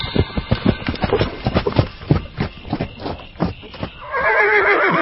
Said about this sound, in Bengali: দেখি ঘোড়ায় চড়ে এক দারোগাবাবু কোথায় যেন চলেছেন, পেছনে দুজন পাগড়িওয়ালা সেপাই